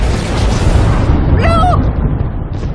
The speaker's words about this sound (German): Doch dann explodierte das Dynamit.